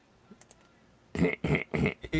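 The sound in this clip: Typing on a keyboard: a few light, sparse key clicks, then a run of louder, dense clattering bursts.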